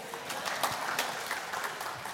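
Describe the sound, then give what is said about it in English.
Applause from a group for a woman who has just read a passage from John: dense, steady clapping that fills the whole short clip at an even loudness, with no distinct voices. “Give her a hand, yay.”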